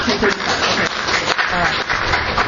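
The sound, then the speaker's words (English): Applause from a meeting audience welcoming a guest speaker, a steady, dense patter of many hands that lasts the whole clip. “So I'm going to give the mic over to her, so give a round of applause for Jane.”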